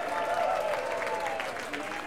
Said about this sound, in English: Let's give him a hand, give him happy birthday.